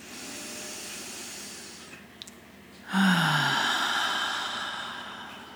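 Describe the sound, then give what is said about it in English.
Slow, deep breathing during a guided relaxation exercise: a soft, airy hiss of breath drawn in and let out, with a fuller, louder rush of air in the second half, lasting several seconds with no talking. “Take a few deep breaths to feel your body and allow yourself to really rest in whatever position you're in.”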